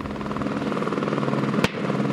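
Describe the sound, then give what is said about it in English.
A helicopter hovers about 150 feet up while dangling a large, roughly 1,000-pound device. Its rotor makes a steady, loud, pulsing drone that runs throughout, broken once near the end by a brief sharp click. “the helicopter returns. Hovering at about 150 feet, the chopper dangles a device called a daisy bell.”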